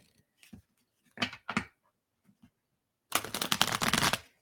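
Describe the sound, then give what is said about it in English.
Cards being pulled from a deck of clarity cards: a couple of short papery slides, then a longer burst of rapid fluttering card flicks, with no talk. “So I've got 7 minutes left or 6 minutes left. I'm going to pull one. Actually, I'm going to pull three cards.”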